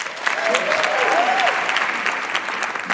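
A studio audience applauds to welcome a contestant onto a show, with full, even clapping that holds steady and loud for the whole three seconds.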